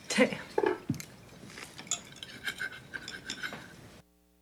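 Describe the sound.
At a family dinner, a spoon clinks against dishes as green beans are served. Many light clinks and knocks come at an uneven pace, louder at first, then stop into silence.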